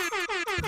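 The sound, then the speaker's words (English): Hip-hop air horn sound effect blaring in a rapid run of short, brassy, high-pitched blasts, each cut by a quick break, loud and piercing without any voices. “But instead of the hip-hop air horn, which we've used every single time playing this game”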